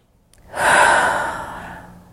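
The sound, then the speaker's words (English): A big, deep breath taken alone, one long airy rush that swells quickly and then slowly fades over under two seconds, with no talking. “Big deep breath.”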